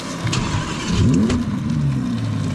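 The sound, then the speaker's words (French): A naturally aspirated V10 supercar engine starts with a raspy roar. A steady, deep rumble swells into a sharp rev near the middle, then eases back to a rough, throbbing idle. “Souffle rauque dès le démarrage, le V10 Atmo ne demande qu'à s'époumoner.”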